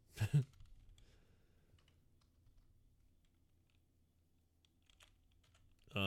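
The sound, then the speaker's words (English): Faint computer keyboard typing: a couple of louder key thumps at the start, then scattered soft clicks over a low hum, with a few sharper taps near the end. “God damn, I can't type for shit today.”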